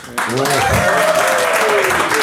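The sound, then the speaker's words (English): Loud, sustained applause from a live audience in Phoenix voting by clapping for one side of a debate bursts in abruptly and holds steady, with voices heard over it. “So if you think Tom and Darren, and therefore Hugh, is in the right, I would like you to applaud now.”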